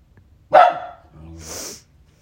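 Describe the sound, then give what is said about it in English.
A dog barks once, a single sharp, loud bark, followed by a softer, longer breathy huff before it falls quiet. “That's my dog.”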